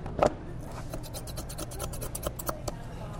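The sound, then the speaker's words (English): Marrow bones being trimmed in a restaurant kitchen: one sharp scrape at the start, then many light scratching and clicking strokes of a blade against bone, faint and irregular. “The marrow bones are being trimmed,”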